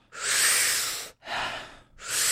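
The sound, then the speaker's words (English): Deep breathing in a breathwork exercise: a long, loud airy breath followed by two shorter breaths, each a broad rush of air separated by brief pauses, with no talk. “So it's like big, deep inhale, soft exhale. Big, deep inhale, soft exhale.”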